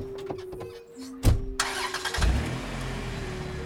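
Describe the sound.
A van engine starting in a parking lot: a loud burst, then the motor catches and settles into a steady low rumble that runs to the end.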